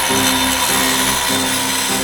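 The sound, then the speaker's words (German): An angle grinder powered from a cable reel cuts into the steel grille of a bunker's entrance gate, a loud, steady, continuous grinding whine with a constant tone and no pauses. “Die Vorhut und ein Ersatzteam haben sich jeweils eine Kabeltrommel mit einer Flex von den beiden Wagen geschnappt und machen sich am Gitter des Eingangstors zu schaffen.”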